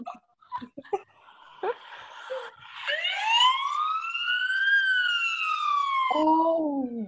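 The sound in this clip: A voice imitates a police car siren: after a few short vocal noises, one long wailing tone climbs, holds high, sags slowly, then drops abruptly to a lower pitch near the end.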